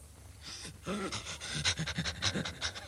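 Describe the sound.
A dog pants in quick, rhythmic, breathy bursts that run steadily and fairly loud, with no talk over them.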